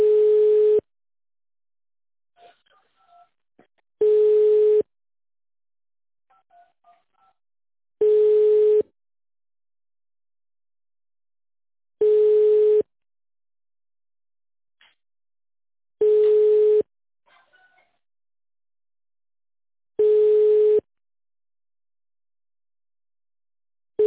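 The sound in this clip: Telephone ringback tone while a call is being connected. Six steady, mid-pitched one-second tones repeat about every four seconds, with faint small clicks in the quiet gaps.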